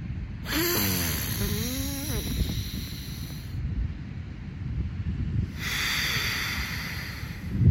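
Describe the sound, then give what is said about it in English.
Slow breathing through alternating nostrils: two long, airy nasal breaths with a soft hiss, separated by a quieter pause, steady and without talk. “inhale through my left nostril, exhale through my right nostril, inhale through my right nostril, exhale through my left nostril”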